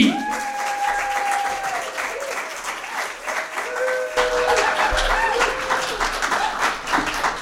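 An audience applauds to welcome a comedian to the stage at a stand-up comedy night. Dense, steady clapping runs throughout, with a few whoops and cheers rising over it.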